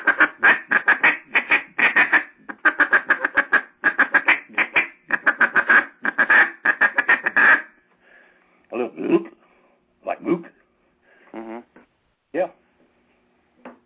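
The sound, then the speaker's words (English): Duck call blown to make quacks: a long run of quick, buzzy, choppy notes, then a pause and a few softer quacks spaced apart. “throw a little light, real soft gut in there for a quack. And you'll think it's a quack.”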